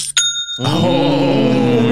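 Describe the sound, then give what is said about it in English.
Online store sale notification chime: a bright, bell-like ring at the start, then a fuller, louder ringing tone that sustains steadily to the end, with no voices. “That's the sound of a sale, fellas.”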